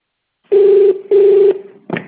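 Telephone keypad key-press tones: two loud, steady tones of equal length separated by a short gap, followed by a brief, rougher burst.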